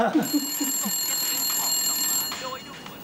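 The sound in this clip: A telephone rings with a steady, high electronic tone that holds for nearly three seconds while people talk over it.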